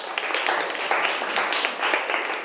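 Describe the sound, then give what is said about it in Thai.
Students in a classroom clap for a classmate who answered correctly, a dense, even patter of many hands that holds steady for the whole stretch without pauses. “ถูกต้องค่ะปรบมือให้เพื่อนหน่อย”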